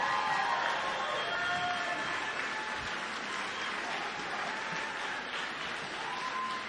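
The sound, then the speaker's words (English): An audience gives a standing ovation at a live show, with dense, steady clapping that stays even and continuous throughout. “How about that, y'all? Standing O.”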